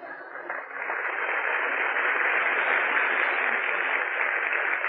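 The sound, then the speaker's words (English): Audience applause from 1943: a dense, steady clatter of many hands that rises quickly and holds loud and even for several seconds, alone without voices and with a narrow, old-recording tone. “Well, go on, applaud.”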